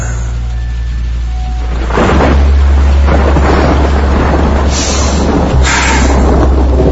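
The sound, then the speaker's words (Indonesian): Heavy rain pouring down, starting quieter and then swelling into a loud, continuous roaring hiss with deep rumbling underneath. “hal yang aku takutkan pun terjadi. Hujan turun dengan besarnya, membuat banjir yang besar pun tidak bisa terelakkan.”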